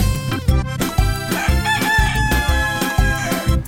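Rooster crowing sounds within a children's song about a hen and rooster, set against loud music with a steady pulsing beat about twice per second.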